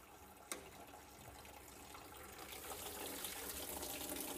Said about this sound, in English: What I just did was I took the radiator cap off. I forgot to take the radiator cap off. Take the radiator cap off when you're draining. That way it will breathe and it will come out quicker.